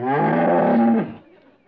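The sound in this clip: A cow gives a single long, loud, low moo that holds steady for about a second and then tails off into quiet.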